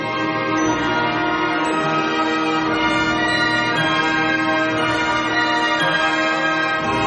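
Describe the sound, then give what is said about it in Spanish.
Small high bells join a slow orchestral piece, ringing bright above a full, sustained orchestral sound that holds steady and evenly loud throughout. “Ahora se suman las campanillas en lo alto.”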